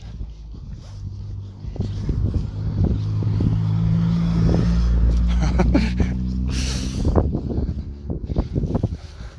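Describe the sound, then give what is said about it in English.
Engine of a souped-up white Corsair car revving, a steady loud roar that swells and surges over several seconds, with gusty wind noise on the microphone. “Young boy in white Corsair, souped up to the gills. Vroom vroom.”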